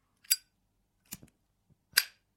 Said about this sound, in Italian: Uno zippo.